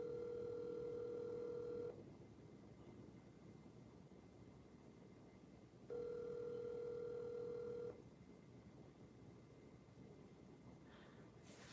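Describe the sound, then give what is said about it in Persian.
A phone call over WhatsApp rings while connecting: two faint, steady ringback tones, each about two seconds long, separated by a silent gap of roughly four seconds, over a soft hiss. “داره زنگ میخوره و داره به من نشون میده که داره کانکت میکنه”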